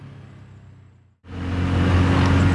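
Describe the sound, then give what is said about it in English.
A Bajaj BS6 tuk tuk driving along country lanes: its engine drones, drops out briefly, then returns as a louder, steady hum. “What's your normal cruising speed? What do you like travelling at in Tuk Tuk? Well, around the country lanes, I think it's nice to do about 30 is nice.”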